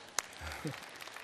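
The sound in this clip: Applause from a church audience invited to clap during a sermon, a brief, faint patter of hands with one sharper clap near the start.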